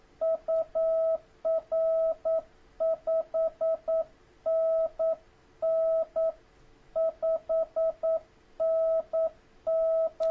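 Morse code keyed by an amateur radio operator sending an evening greeting and signal report: many steady, mid-pitched beeps of mixed short and long lengths, grouped into rhythmic bursts with gaps between, heard alone.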